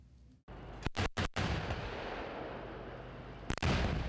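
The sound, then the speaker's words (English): Artillery fire from K2 tanks and K9 howitzers in a choreographed military demonstration on a South Korean hillside: a quick series of heavy, booming blasts, then sustained rumbling, and another loud blast near the end. “A highly choreographed attack on a hillside in the South Korean countryside. K2 tanks, K9 howitzers, Apaches and drones.”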